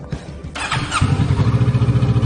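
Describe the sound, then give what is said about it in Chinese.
A motorcycle engine starts for an early-morning test ride: some brief rattling, then the engine catches at about one second and settles into a loud, steady, evenly pulsing idle. “因为这种摩托我不希望很多车的时候试车，我怕跌倒。”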